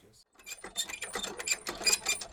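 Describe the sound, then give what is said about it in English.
A testing machine pulls on a tied knot with rapid, irregular mechanical clicking and ratcheting. The sound starts faint, then turns steady and louder as the pull continues. “then we're going to put it on the testing machine. So here we go.”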